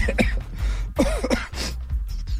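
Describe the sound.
Throat clearing of phlegm comes as a few harsh, raspy, cough-like bursts with brief pauses between them, loud and close.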